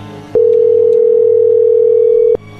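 Ringback tone of an outgoing telephone call that goes unanswered: one loud, steady mid-pitched tone that starts abruptly, holds unchanged for about two seconds, then cuts off into quiet line noise.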